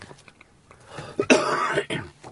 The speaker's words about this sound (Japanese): ごめんなさい。あの、咳がね、出たりするんですよ。